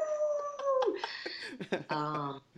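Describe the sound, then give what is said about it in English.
A human voice imitates a celebratory wolf-like howl, let out after pinning an opponent in wrestling: a held, clear tone that slides downward in pitch, followed by several shorter howling and yelping bursts. “when I pinned my senpai, I let out this like celebratory howl. It just came out of my throat”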